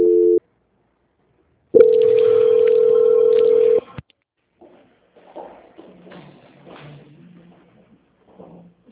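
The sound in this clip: Telephone call-transfer tone: a brief beep, a pause, then a long, steady mid-pitched tone lasting about two seconds, followed by faint talk on the line.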